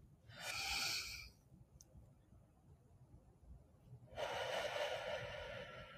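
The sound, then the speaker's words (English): A deep breath drawn in through the mouth during a guided meditation, then after a pause of a few seconds a long, breathy release; both are soft and faint, with no talk. “I want everybody to take a big, deep breath in.”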